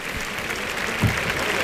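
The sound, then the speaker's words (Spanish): Bullring crowd ovation for the Sevillian bullfighter Juan Ortega: a steady, dense roar of clapping from many spectators, holding at an even loudness with a small swell near the middle. “Y ahí está la ovación para Juan Ortega, que saldrá a recibirla al tercio seguramente, o a la segunda raya.”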